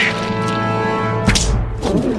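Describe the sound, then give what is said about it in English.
Two sharp smacks of a rubber glove slapped against a bare hand cut in over sustained music, each a brief bright whack. “Mrs. Tweety slaps a rubber glove against her bare hand.”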